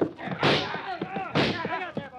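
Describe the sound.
Two loud gunshots ring out in a radio drama shootout in which a man is wounded in the arm. Each is a sharp, booming burst that trails off, with voices heard between and around them.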